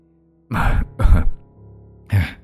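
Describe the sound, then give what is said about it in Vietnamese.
An old man coughs and clears his throat in three rough, low bursts, the first two close together and the last after a brief pause. “ho lên mấy tiếng rồi nhăn mặt nói”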